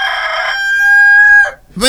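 A rooster crows one loud, long, steady call that ends abruptly, followed by the start of a brief second call.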